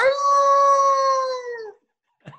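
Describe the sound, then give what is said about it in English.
A human voice imitating a howl: one long, loud, steady sustained note that dips slightly in pitch as it fades out, followed after a brief pause by a short sound. “You want a preview of the howl? A preview of the howl.”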